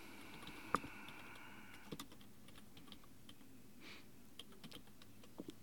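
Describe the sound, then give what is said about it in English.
Quiet typing on a computer keyboard while entering a web search: faint, irregular keystrokes with short gaps and one sharper tap near the start. “I'm going to type it in just to see while I'm here.”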